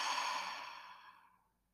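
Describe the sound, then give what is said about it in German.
A single long exhale through the mouth during a guided breathing exercise, a soft breathy rush that starts fairly strong and fades away over about a second and a half. “Und gerade nochmal durch die Nase ein. Und durch das Maul wieder raus.”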